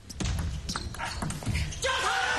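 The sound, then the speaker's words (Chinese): Table tennis ball struck during a serve and the exchange that follows in a professional match, a few sharp, dry clicks spaced irregularly over a busy background with a commentator talking. “再来，3-7，梁俊坤发球。”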